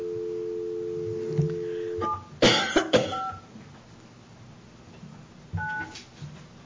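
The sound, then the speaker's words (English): A telephone number is dialed on touch-tone keys. A steady dial tone stops, a few short beeps sound amid a cough and throat clearing, and another brief pair of tones follows near the end, all fairly faint. “Well, dang it, I dialed it wrong.”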